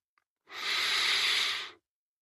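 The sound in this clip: One deep, drawn-out breath makes a steady airy hiss that lasts just over a second. It swells and then fades, alone in otherwise quiet surroundings.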